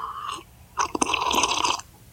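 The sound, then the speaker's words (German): Someone drinking, heard as a sound in a sound-matching memory game: a short burst, a brief pause, then a longer run of noisy gulping and swallowing that stops abruptly. “Das Geräusch kennen wir noch nicht. Da wird getrunken.”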